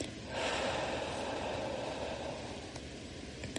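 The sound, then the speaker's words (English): A forceful exhale of breath: a long, loud breathy rush that swells quickly near the start and then trails off gradually over a few seconds, with no voice. “Inhale. Hold. And squeeze out your breath.”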